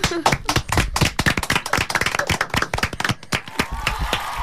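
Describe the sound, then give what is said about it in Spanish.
A canned applause sound effect gives fast, dense, uneven clapping at a loud level throughout. “porque se merecen un gran aplauso. Si tuviéramos algún efecto de aplauso...”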